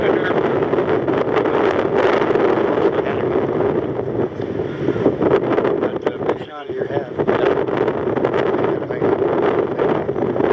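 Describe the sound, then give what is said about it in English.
Wind blows outdoors in a loud, continuous, buffeting roar that rumbles against the microphone without letting up. “Wind won't blow you away?”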